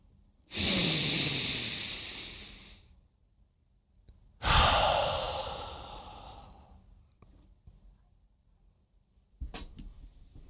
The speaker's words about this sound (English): if you're willing to do that right now, if you'll just stop and take a breath for three, just stop.